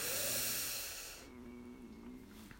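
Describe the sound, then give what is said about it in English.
Slow, deep in-breath during a guided breathing exercise, heard as a broad, airy hiss that fades after about a second, leaving a quieter, low steady background. “And our third and final breath together. Breathe in”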